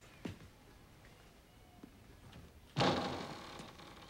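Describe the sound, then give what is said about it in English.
A sliding door to a bedroom is slid shut: a couple of faint knocks come first, then a louder, broad rushing thud that trails off slowly. “He slides the door shut.”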